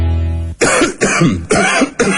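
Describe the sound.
Four harsh coughs from a person in quick, even succession in a cough medicine advert, coming right after a brief sustained tonal note that cuts off abruptly.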